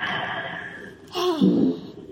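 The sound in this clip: Deep breath during a coaching session: a steady, hum-like voiced tone, then a longer breathy exhale with a soft voiced sigh.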